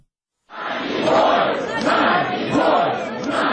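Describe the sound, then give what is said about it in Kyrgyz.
Protesters shouting outside the Russian embassy in Kyiv, demanding freedom for Nadezhda Savchenko: a loud crowd chants a short phrase over and over in a steady rhythm. “Киевдеги орус элчилигинин жанына чогулгандар Надеждага эркиндик деп кыйкырып турушту.”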